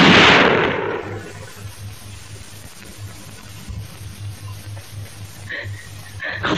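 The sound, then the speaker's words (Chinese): A single gunshot gives one loud, sharp blast at the very start. Its rumbling tail fades over about a second and is followed by a low steady hum and faint scattered noises. “站住！站住！老子我开枪了！”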